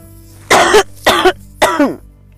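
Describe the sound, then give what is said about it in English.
Three loud, harsh coughs come in a steady rhythm from someone choking after smoking premium organic hemp. Each burst is short and rasping, with clear gaps of near-quiet between them and no talking. “excuse me smoking and choking on some premium organic hemp”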